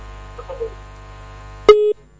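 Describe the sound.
A single short electronic phone-line tone after a radio call-in caller's line disconnects. It is a brief steady beep that cuts through a low hum, with a few faint soft noises just before it.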